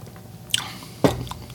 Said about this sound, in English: Lime on top really helps. So, let's give it a taste.